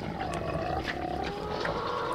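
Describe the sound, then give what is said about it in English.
A pig lying out in the sun snorts, giving low, rough, breathy grunting sounds over a continuous noisy rumble. “Yes, this is a pig snort. This is a pig laying out in the sun, warming up.”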